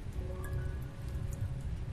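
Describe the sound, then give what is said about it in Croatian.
Faint, steady rain with a soft, continuous hiss and light patter, alone and without voices. “Još kad bi sam ta jebena kiša prestala...”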